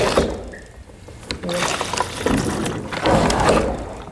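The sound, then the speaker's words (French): A hand pump with a suction rod dipped into a canister moves liquid into a tank, giving an irregular gurgling and sloshing flow with uneven bursts. “On ouvre le bouchon, on vient plonger la tige d'aspiration dans le bidon. Et ensuite, on actionne la pompe et ça fait transférer le liquide de là à la cuve.”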